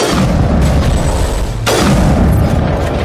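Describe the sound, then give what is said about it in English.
A sniper rifle shot in a video game cracks sharply through loud, dense rumbling game sound that stays heavy and continuous throughout. “wow, he's so tough, he actually took two sniper rifle shots to handle.”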